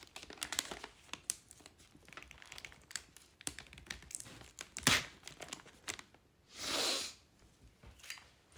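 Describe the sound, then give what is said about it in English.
Sticky tape is pulled off and torn while a Christmas gift is wrapped: many faint crinkles, taps and rustles of handling, then one drawn-out ripping screech of tape, all quiet. “Let's put some tape on this little thing right here.”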